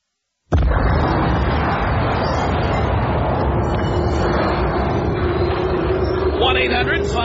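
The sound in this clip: An explosion sound effect bursts in abruptly after a moment of silence, then rolls on as a loud, sustained roaring rumble until the end.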